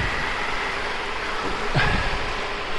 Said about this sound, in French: Et il continue à pleuvoir.